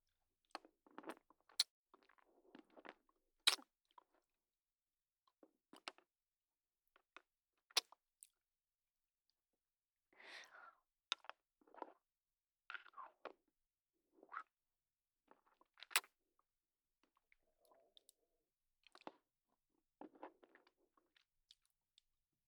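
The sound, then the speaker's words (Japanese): Crunchy chewing of a limited-edition flavour snack: many crisp, loud bites and crunches come in irregular clusters, separated by short quiet gaps, with no talking. “これ、めっちゃ美味しいです。でもう一回な、食べるで。”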